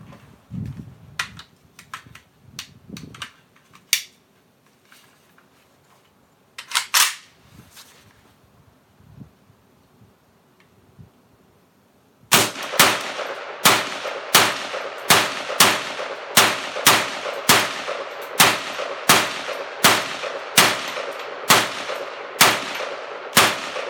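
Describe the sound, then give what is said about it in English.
Gunfire from a new Lee Armory Classic AK rifle shooting its first rounds. After a stretch of scattered faint knocks, many loud, sharp, evenly spaced shots ring out in a steady rhythm until the end. “This is my new Lee Armory Classic AK, and this will be the first 20 rounds I ever shoot through it.”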